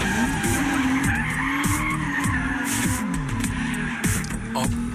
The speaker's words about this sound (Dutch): Het is gelukt om een Toyota Supra volledig zelf te laten driften.